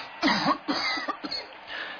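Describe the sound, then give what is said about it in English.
Coughing from someone with hay fever in heavy pollen: a few harsh, dry coughs in quick succession, moderately loud, followed by a weaker cough near the end. “I still cough like that, though.”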